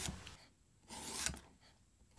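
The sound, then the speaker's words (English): Knife slicing homegrown pickling cucumbers into slices about a quarter inch thick: a few soft, rasping cuts, ending in a sharper knock as the blade meets the board. “So I'm cutting these about a quarter inch thick.”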